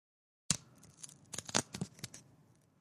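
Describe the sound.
A mailed envelope is torn open by hand after a moment of silence, with a quick series of papery rips, a few sharper tears standing out, then fading.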